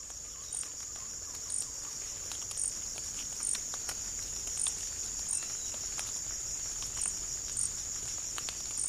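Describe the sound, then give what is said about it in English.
Insects in an acacia plantation forest hold a continuous shrill, high drone, with many regularly spaced chirping pulses standing out above it at a steady rhythm. “Probably some insects you're hearing, and certainly in those plantation forests, that's something we've seen really dominated by insects at sort of all times of the day.”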